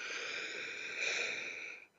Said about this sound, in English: So let's take a breath in through your nose,